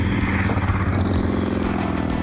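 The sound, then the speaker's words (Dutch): Motorcycle engine noise, a loud, steady, low droning rumble with a buzzing tone that holds throughout. “Ja, dat zijn de zware motoren met lekkere donkere geluiden waar je van kunt genieten. He. En het zijn de jankertjes die heel veel lawaai maken.”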